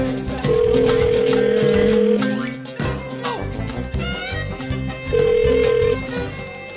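Ringback tone of an outgoing phone call: two long, steady electronic tone bursts with a gap between them, heard over loud background music.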